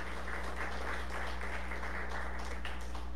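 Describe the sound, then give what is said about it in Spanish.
Faint applause from a church audience praising the Lord: soft, steady clapping beneath a loud, constant electrical hum. “Le damos un aplauso al Señor por eso.”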